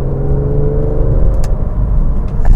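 A car engine runs during a drive with double-clutch gear changes. It is a steady low rumble with layered humming tones, growing a little louder toward the end, with a few brief clicks and no talk.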